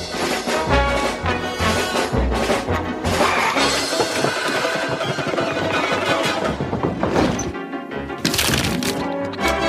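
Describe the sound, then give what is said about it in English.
A real wood fire crackles in a stove in a living room at Christmas. Loud, dense pops and sharp cracks run continuously over a low roar. “There's a genuine fire burning in a stove behind me. It's lovely and warm.”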